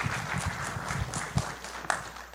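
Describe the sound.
A church audience applauds to welcome a speaker, a steady wash of clapping from many hands at moderate level.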